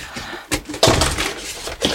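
A rusty metal box being opened, with a couple of dull knocks followed by a longer rough scraping noise that fades out, then one more brief knock.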